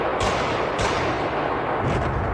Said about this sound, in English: Gunmen had stormed the venue near Moscow, the Crocus City Hall. They went on the rampage, shooting their way through the building and into the auditorium.